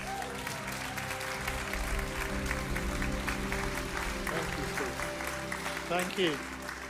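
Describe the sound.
Church audience applause welcoming a speaker, a steady, dense wash of clapping over a sustained tonal background, with a voice briefly rising near the end.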